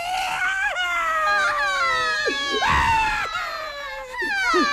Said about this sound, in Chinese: 你别哭了，你也别哭了啊！哎呀，这白天都哭成这个样子，到晚上可咋办呢？